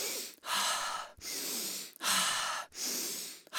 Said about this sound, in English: So the breathing sounds like this.